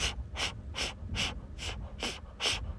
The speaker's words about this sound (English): It is the breath that is through with our mouth, with puffing up our mouth. So it sounds like this.